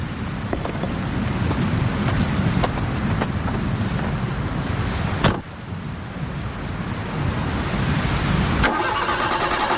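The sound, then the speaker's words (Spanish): Car engine with a spark plug removed, cranking and running with a loud, steady, rough drone, broken midway by a sharp clunk and a brief dip before the noise resumes. “Pues eso, que el coche arranca sin esa bujía.”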